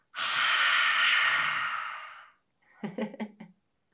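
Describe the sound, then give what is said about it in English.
Breathing in through the nose and out: a long, loud, airy inhalation lasting about two seconds, followed after a short pause by a brief, broken exhalation. “So let's breathe in together through our nose all the way down to our belly. Hold it, then breathe out.”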